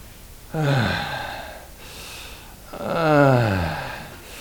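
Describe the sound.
Laboured gasping breaths of a dying man, imitated by a voice: two long, rasping, voiced gasps that fall in pitch as each drags on, with a quieter breath between them.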